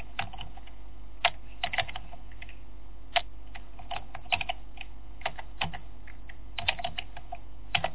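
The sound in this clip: Typing on a computer keyboard: many quiet, irregular key clicks, some in quick pairs and short bursts, over a low steady hum.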